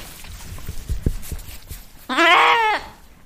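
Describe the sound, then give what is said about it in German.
A lamb bleats on a farm among ewes: one loud, wavering harmonic bleat lasting under a second, following a stretch of soft low rustling. “Die frischen Mamas mit ihren kleinen Lämmchen. Da kannst du auch gleich hören.”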